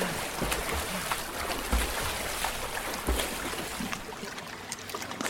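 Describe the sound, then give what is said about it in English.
Water splashes as a man swims as fast as he can toward an underground shore after being attacked underwater, a continuous churning wash broken by a few heavier splashes, fairly faint. “His gaze turns to the nearest shore and he swims there as quickly as possible.”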